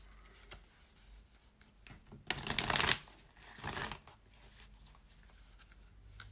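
Tarot cards are shuffled before a soul card is drawn, with two short bursts of rustling, riffling card noise, the first longer and louder, amid faint scattered ticks and quiet handling sounds.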